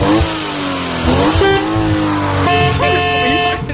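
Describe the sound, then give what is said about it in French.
An old car horn honking in long, brassy, buzzing tones that change pitch a few times, with engine revving underneath. “Le vieux klaxon de merde. Hey, klaxon de merde.”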